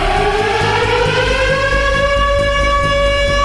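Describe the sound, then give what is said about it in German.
A civil defense warning siren wails during a nationwide test alarm in Germany, a loud, sustained tone that slowly climbs in pitch throughout. “Beim Probealarm um 11 Uhr werden wieder Sirenen heulen”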